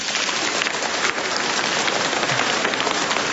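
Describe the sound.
Applause greets a visiting parish group from Komarów, Holy Trinity parish, at a church gathering: a continuous, hissing patter of many hands clapping, steady and moderately quiet with no voices.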